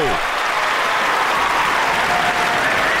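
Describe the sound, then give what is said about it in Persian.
Applause from a studio audience, dense and steady clapping that stays loud and unbroken for the full three seconds. “بزن دست قشنگرو”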